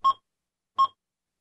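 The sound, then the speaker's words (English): Two short, clean electronic beeps from a barcode scanner, each a single bright mid-pitched tone, separated by a pause of under a second against silence. “That's the sound of a barcode scanner, and Woodland”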